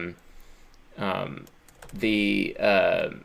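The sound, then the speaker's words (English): Keyboard typing clicks under a person speaking at a steady pace, with short bursts of keystrokes between phrases. “So let me actually read it to you while I'm typing it out at the same time.”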